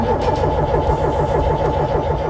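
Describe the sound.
A car engine cranking over on a new battery, a loud continuous mechanical drone with a rapid, even pulsing beat that holds steady throughout.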